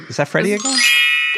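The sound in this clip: A bright, magical fairy-like tinkling chime recorded in a forest rings out as a sustained, shimmering high tone right after brief talk, holding steady to the end.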